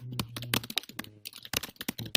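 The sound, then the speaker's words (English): Furious typing on a computer keyboard: many rapid, irregular clicking keystrokes in quick bursts with brief gaps, sharp and fairly loud, with no speech. “Furious typing.”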